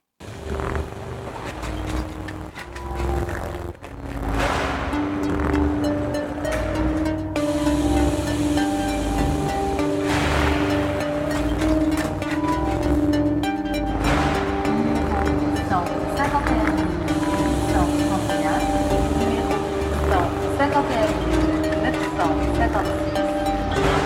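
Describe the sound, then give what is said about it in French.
Ambient sounds of the Gare de Lyon railway station in Paris: a steady, dense wash of noise with sustained tonal hums and whines running throughout, and no pauses. “Et nous terminerons donc cette émission avec quelques petits bruits de la gare de Lyon montés par Franck Larose.”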